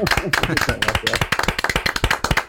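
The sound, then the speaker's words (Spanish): Audience applause welcoming a guest on an interview show, many sharp, distinct claps in a quick, uneven rhythm, with a voice talking over the first part. “Fíjate, todavía sin haber respondido, te ibas a esta primera ovación, naturalmente. Este primer aplauso.”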